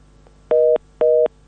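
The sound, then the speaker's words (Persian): Telephone tone after a dropped call: two short, loud, evenly spaced beeps of a steady mid pitch, separated by brief silence, with no voices. “متاسفانه تماس خاطره مبارز از پروان قطع شد.”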